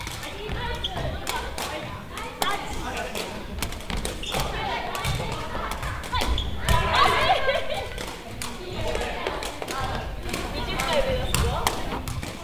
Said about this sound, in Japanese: ボールを持たずに蹴り続けるリフティングの練習を行います。一人ずつの練習の後は 2,3 人で組になってボールを落とさないように練習